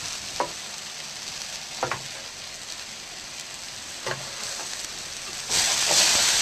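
Chopped mushrooms frying with onion in a pan give a steady, crackling sizzle, broken by a few brief stirring clicks and scrapes, and the hiss grows noticeably louder near the end.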